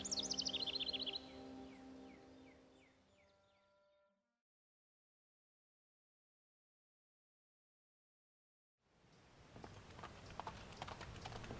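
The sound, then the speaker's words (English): Horses' hooves clip-clopping as two riders set out along an outlaw's trail, with birds chirping at the start. The sound fades to silence, and after a pause a dense, noisy stretch begins. “the Lone Ranger and Tonto rode to the place where the posse had given up the search for the outlaw's trail”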